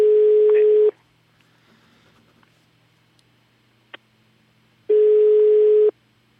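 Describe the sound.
Italian ringback tone on an outgoing telephone call that goes unanswered: two steady, mid-pitched one-second tones separated by a long quiet gap, with a faint click in between.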